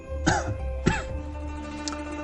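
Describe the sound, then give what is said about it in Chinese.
Two sharp, throat-clearing coughs from a person lecturing on feng shui ring out in quick succession, loud and abrupt against a quiet background. “哎呀，不好意思，有点咳嗽啊。”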